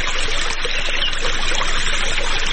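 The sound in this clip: Water running while someone irrigates a seasonal orchard in a village south of Ghazni: a constant, loud rushing flow with no pauses or talk.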